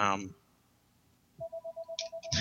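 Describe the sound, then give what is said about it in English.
A phone rings with an incoming call, sounding as a rapid series of short electronic beeps at one steady pitch. A voice is heard briefly before and after the beeps. “sorry, I got a little phone call coming in here.”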